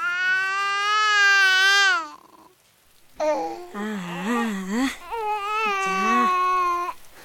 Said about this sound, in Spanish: Este bebé se queda conmigo y solo llora y llora.